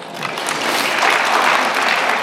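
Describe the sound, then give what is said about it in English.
An audience applauds at a talk, a short burst of clapping that swells in the first second and stays loud to the end. “I'm just describing, you can clap on a nonpartisan basis”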